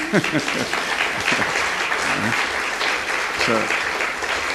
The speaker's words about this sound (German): You don't want to clap.